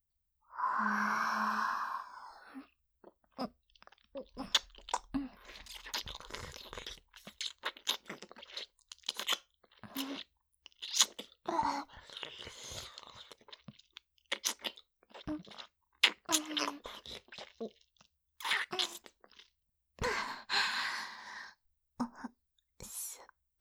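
Greasy, glistening food is eaten with many close, crunchy bites and wet chewing sounds at an irregular pace, quiet between bursts.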